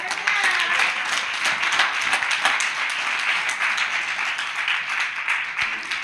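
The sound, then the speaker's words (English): Audience applause and hand clapping for a woman returning to her seat at a live gathering, a steady wash of many hands that holds evenly throughout. “Okay, you can go sit down. Can y'all give her a hand clap?”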